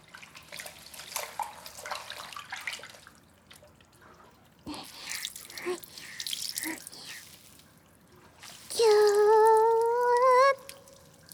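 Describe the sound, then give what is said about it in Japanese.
A hand towel soaked in hot water is wrung out, with soft splashing and dripping water in two stretches, followed near the end by a loud, steady tone that rises slightly in pitch. “お湯に手ぬぐい浸してぎゅーって絞って、”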